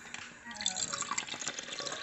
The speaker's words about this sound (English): I've got the Kerashan wheat flour in the bowl. I only need a little tiny bit of water, 290 milliliters divided by 4, which is 62 and a half.